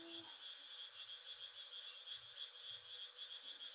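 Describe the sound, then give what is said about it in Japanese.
Frogs croaking in a continuous chorus, a rapid, evenly repeating train of high rasping pulses at low level, with soft irregular low thumps underneath and no talk. “カエルが鳴いてございますね。”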